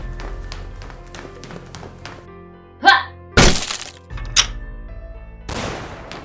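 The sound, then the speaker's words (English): A stun grenade goes off during a door breach: light tapping gives way to a few loud, sharp bursts. The largest is a harsh, crackling bang, and fainter thuds and crackles trail after it. “Alright, stack up. We're breaching. I got a stun grenade.”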